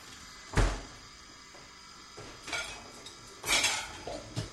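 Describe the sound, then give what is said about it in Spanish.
Dishes, pots and cutlery clatter as they are washed, in three separate bursts of clinking and knocking with quiet gaps between them. No voices are heard. “voy a lavar los platos”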